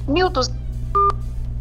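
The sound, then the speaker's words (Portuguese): A short electronic telephone tone sounds once on a dropped phone call, just after a brief voice. It is steady and clearly pitched, over a low line hum. “Caiu a ligação. Ela ia passar o endereço, caiu a ligação.”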